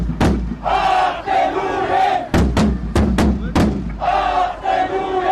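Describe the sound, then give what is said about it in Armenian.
A crowd of Armenian protesters shouts and chants in unison at a demonstration outside the Israeli foreign ministry against arms sales to Azerbaijan, with loud, rhythmic bursts of many voices broken by several sharp hits. “Իսրայելի արտաքին գործերի նախարարության մոտ հայերը բողոքի ակցիա են իրականացնում”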